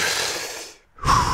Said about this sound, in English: So you're just breathing like this. It should sound like that. And then exhale like this.